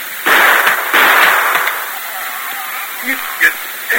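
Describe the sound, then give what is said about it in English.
Gunshots shoot the lock off a chest as two loud, sharp bangs in quick succession, each with a ringing tail, followed by brief faint voice sounds. “There's presents in that chest, too, Torlock. Yeah, let's see what's in it. Stand back here a ways and shoot the lock off,”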